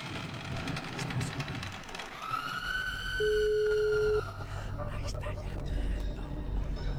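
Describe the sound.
One steady, mid-pitched telephone ringback tone lasting about a second as a call is placed, set among other background sounds.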